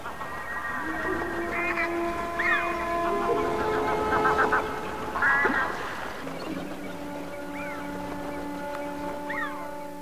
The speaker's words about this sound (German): Gänse.